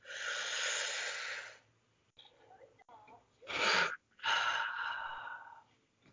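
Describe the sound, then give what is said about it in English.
A deep breath drawn in: a long, loud, airy inhale. After a pause come two more forceful, hissing breath sounds, with no talk. “shall we breathe in? Yes. And are you ready? Yes. 3, 2, 1.”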